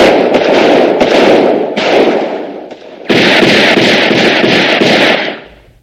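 Gunfire in a film scene: a dense, loud, continuous volley of cracking shots that eases briefly midway, resumes at full strength, then fades out at the end.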